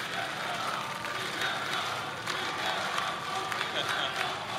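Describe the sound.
Crowd of spectators roars at the Tour de France finish on the Champs-Élysées, a dense, steady wash of cheering and scattered clapping that holds at an even level, with speech over it.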